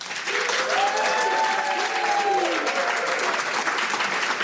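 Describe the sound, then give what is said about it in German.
Audience applause for a singer about to play live in a radio studio: a steady, dense wash of clapping that holds at an even loudness for the full few seconds. “einen riesigen Applaus bitte”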